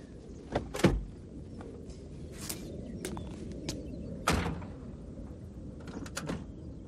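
The rear door of a police officer's car is eased open with a few muffled clunks and clicks over a low rumble, two of them more pronounced than the rest.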